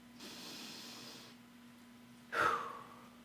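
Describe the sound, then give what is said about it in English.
A person takes a deep breath: a long soft airy inhale, then a sharper, louder breathy burst near the end. “all I have to do is take a deep breath as soon as I see those”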